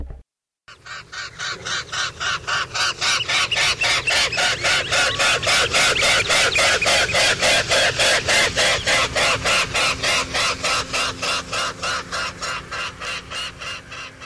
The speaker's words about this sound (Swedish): Och sen hör vi sångsvanens trumpetande.